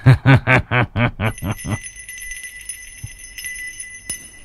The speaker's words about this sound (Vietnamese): Tiêu Trung lạnh giọng vung vẩy cái chuông